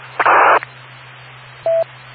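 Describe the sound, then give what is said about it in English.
Touch-tone beeps from a house phone being dialed: two short electronic tones, the first slightly longer and the second a clear pure beep, over a faint steady low hum. “I'll call them on my house phone.”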